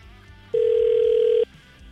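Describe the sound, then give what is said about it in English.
Telephone ringback on an outgoing call: one steady, pure mid-pitched tone lasting about a second, louder than the faint background before and after. “So we're gonna call Ben now. We have his phone number.”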